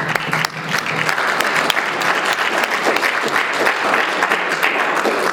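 Audience applause at a public event presenting a young woman's novel, thick rapid clapping from many hands that stays loud and even for several seconds without pause.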